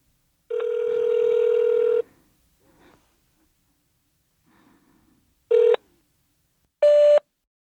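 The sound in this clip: Phone tones as a number is speed-dialed to leave a voicemail: one long, steady tone, then two short beeps after a pause, with faint soft rustles in between.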